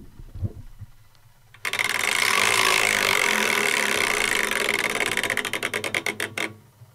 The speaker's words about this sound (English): it's got to be time for another wheel spin, I think.